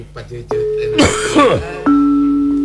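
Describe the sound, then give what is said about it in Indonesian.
Two harsh coughing bursts with falling pitch during a spoken Sundanese performance, with sustained ringing metallic tones before and after. “Punten ye batukula.”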